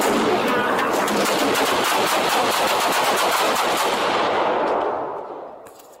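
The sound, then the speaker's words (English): Automatic gunfire in police body-camera footage: a long, rapid burst of many sharp shots at steady loudness that tapers off about five seconds in. “but you're still going to hear the shooting and some of the screeching”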